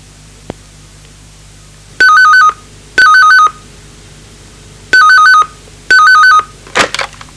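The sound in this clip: A telephone rings in two double-ring pairs, four short electronic bursts in all, evenly spaced and loud against a quiet background.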